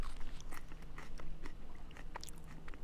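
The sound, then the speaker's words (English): Someone chews a freshly torn leaf of wild lettuce, producing crisp bites and moist, crunchy chewing in an irregular rhythm, quiet and close, with no talking. “This is wild lettuce. Smell this. It's amazing. Oh, it smells beautiful. Okay, and then take a little tear like that. Yeah. Taste like it.”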